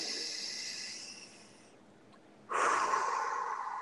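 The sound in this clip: A deep breath taken alone: two soft, hissing rushes of air separated by a short quiet pause, with the second one louder and fuller than the first.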